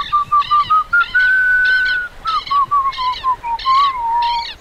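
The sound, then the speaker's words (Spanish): A boy whistles as he enters, a loud, clear, wavering mid-pitched tune broken into pulsed phrases, heard alone with no talk. “Ingresa el changuito silbando, se acerca al tero y lo acaricia.”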